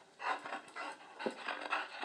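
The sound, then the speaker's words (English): A female dog pants excitedly before a walk, quick rhythmic breathy bursts that repeat steadily at moderate loudness with no other sounds. “it's that time of the day again, the one of three times when I have to take the dog out for a walk. And occasionally she gets very vocal.”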